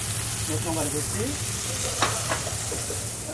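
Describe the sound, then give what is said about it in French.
Peeled raw shrimp and beef pieces sizzle steadily in a pan for ndolé, a continuous loud frying hiss with a couple of short stirring scrapes and a faint voice briefly underneath. “Donc là, vous avez mis une petite poignée de crevettes décortiquées. Voilà. Maintenant, vous ajoutez le bœuf en fine lamelle. Enfin, en morceaux. En morceaux. En fait. Vous faites revenir l'ensemble.”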